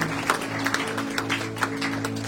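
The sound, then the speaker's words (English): A church audience gives a round of applause to those who pray. The clapping is fairly quiet and uneven, with claps scattered over a low, steady hum. “Let's give a round of applause to those who pray.”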